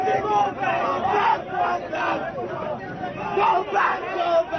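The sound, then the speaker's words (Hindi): Student protesters from the Akhil Bharatiya Vidyarthi Parishad shout slogans against Rahul Gandhi's visit: a crowd of voices chants loudly in repeated rhythmic bursts that swell and drop, with chatter underneath. “हालांकि इस जमावाड़े से कुछ दूर अखिल भारतीय विद्यार्थी परिषद के छात्रों का एक दल राहुल गांधी के यहाँ आने के विरोध में नारे लगा रहा था।”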